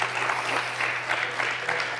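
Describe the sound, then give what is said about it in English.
An audience at a beer masterclass applauds with dense, steady clapping that is fairly faint and runs without a break. “maybe you can give a hand of applause for the work you're doing.”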